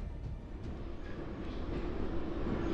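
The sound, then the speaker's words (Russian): A metro train running at night gives a faint, continuous low rumble with a soft hiss above it, steady throughout and with no voices. “Ночные поезда. Они ходят редко, часто пустые, объявляя станции в безлюдных вагонах.”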